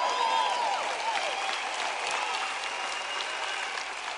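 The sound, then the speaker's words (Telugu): An audience applauds in a sustained, dense wash of clapping that stays loud and even, easing only slightly toward the end. “అదిగో అక్కడ ముగ్గురు ఉన్నారనుకుంటాను, ఉత్సాహపరుస్తూ. ఎవరైనా మీకు ఇవ్వడం మీద బోధించినప్పుడు మీరు అరవాలి, చప్పట్లు కొట్టాలి, ఉత్సాహపరచాలి.”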